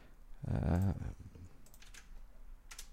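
A few soft, sparse computer keyboard clicks as text is pasted in, following a brief voiced sound at the start.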